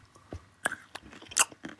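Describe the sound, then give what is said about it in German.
Someone crunches a cinnamon almond, making a few sharp, crisp cracks mixed with softer chewing noises. The sounds are faint and come in irregular bursts. “Was isst du da? Das ist ein Zimtmandel.”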